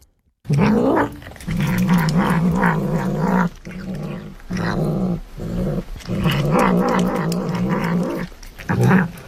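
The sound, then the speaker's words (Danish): A dog growls and thrashes as it shakes a fish it has caught. Many rough, throaty bursts repeat with short pauses between them, loud and with no talking. “Det er en hund, der står og slår en ryster en fisk. Han har fået fat på en fisk, og så står den og ryster den”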